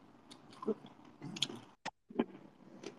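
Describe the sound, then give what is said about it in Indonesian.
People eat during a mukbang, producing faint, irregular chewing and biting sounds: soft crunches and moist smacks in uneven bursts, with a brief silent gap midway. “Gue mau ngapain emang dengerin kalian mukbang.”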